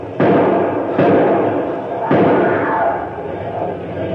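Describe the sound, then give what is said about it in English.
Heavy thuds as a safety door is opened: three loud, abrupt impacts roughly a second apart, with a dense rumbling noise carrying on between them and fading toward the end. “get that safety door open so I can get out.”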